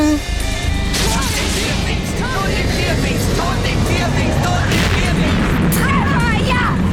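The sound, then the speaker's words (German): Gunfire and booming blasts in a radio drama battle, a loud, dense barrage of cracks and rumbles running throughout, with shouting voices over the din. “Skadi, sie schießen aufeinander, die blöden Vierfinger!”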